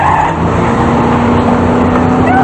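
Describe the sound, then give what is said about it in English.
A Mercedes car engine roars loudly and steadily as the car is driven hard along a street. The drone holds throughout with no pause. “DeVoe puts the car in reverse, slams into the car behind them, and drives it through a plate glass window on the other side of the street. The other two cars spin into a U-turn in the street as the Mercedes drives away.”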